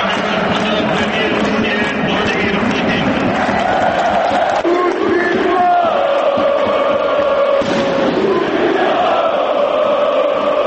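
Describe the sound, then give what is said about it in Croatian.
Football fans cheering loudly at the Marakana stadium during a Zenit versus Crvena Zvezda match. A dense, sustained roar of many voices stays loud throughout, with shouting and chanting rising out of the crowd noise. “Navijači su burno pozdravili ruskog predsjednika i otpevali mu Kaćušu”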